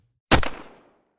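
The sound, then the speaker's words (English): A starter's pistol fired into the air to begin a race in the dark woods: one sharp, loud crack with a short decaying tail, heard alone. “A single bullet in the air to kick off this epic race. A single bullet that awoke something out there in the dark woods. Something that heard that starter's pistol”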